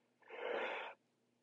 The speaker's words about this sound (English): Excuse me, I'm yawning.